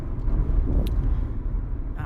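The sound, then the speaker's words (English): A car descends a steep hill on a rural road, heard as a steady low engine and tyre rumble that stays even throughout the short stretch. “So we're coming downhill pretty steeply now. And the apple barrel's like at the end of the hill, and that's where the crash happened, or nearby. So we're just driving this area to try to just feel kind”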